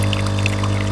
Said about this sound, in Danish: Det er den her lyd. Kaffemaskinen.